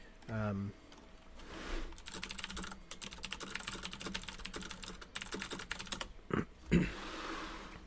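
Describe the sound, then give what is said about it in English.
Quiet typing on a computer keyboard: many rapid, light key clicks in an uneven patter, preceded by a brief low vocal sound and ending with a couple of louder knocks. “I'm going to type at you.”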